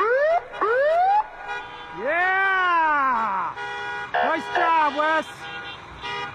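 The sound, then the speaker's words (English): Fire truck sirens wail through a small coastal Alaskan town celebrating a returning wrestling champion, with quick rising whoops, one long rising-and-falling wail, then short stuttering siren bursts, as people cheer and call out over them. “Wesley Verham rode atop a fire truck with sirens wailing through the picturesque coastal Alaskan community of Haynes on Sunday.”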